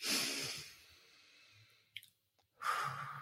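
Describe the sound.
Breathing out through the mouth during a guided calming exercise: two breathy, hissing exhales, the first loud and slowly fading, the second starting after a short quiet pause.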